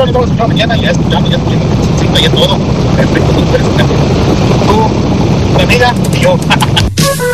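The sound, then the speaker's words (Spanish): Strong wind blows and buffets the microphone in a loud, continuous roar with heavy low rumble, while voices talk over it. “Escucho mucho viento.”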